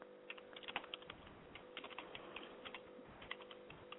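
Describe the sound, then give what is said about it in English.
Fingers type on a computer keyboard with many quick, faint key clicks in an uneven patter, some taps sharper than others, over a steady low hum. “I'm just having to type something there.”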